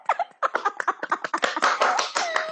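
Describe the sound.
Someone at home claps and taps their hands together in quick, uneven bursts, a brief and lively run of sharp slaps at moderate loudness.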